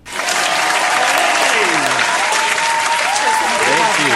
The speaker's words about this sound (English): Give it up for James Snyder.